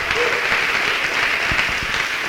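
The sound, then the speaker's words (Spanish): A church audience applauds during a Spanish-language worship service: dense, steady clapping with no pauses, sustained at an even loudness for the whole stretch. “¿Cuántos dan un aplauso al Señor?”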